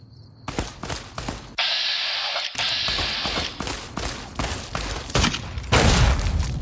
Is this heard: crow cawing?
no